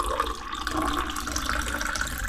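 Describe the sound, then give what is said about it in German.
White Welschriesling wine poured from high up into a glass, a continuous, fairly faint splashing and bubbling stream with no pauses. “Hoch eingeschenkt und das ist schon ein bisschen blubbert im Glasl, habe ich einen Welschriesling vom Germanic eingeschenkt”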